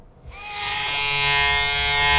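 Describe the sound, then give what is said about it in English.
Remington electric razor shaving: a loud, steady buzzing hum with a bright, whirring edge that starts after a brief quiet moment and swells slightly as it continues. “Oh, hi. You caught me shaving. I was a dedicated blade shaver until my wife bought me a Remington electric razor.”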